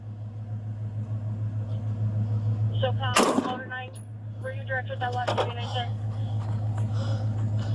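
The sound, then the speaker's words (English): A loud, sharp gunshot from police officers, fired during an armed confrontation in Truth or Consequences, New Mexico, cuts through a steady low engine hum as men's voices shout around it. “Shots fired. He's shooting.”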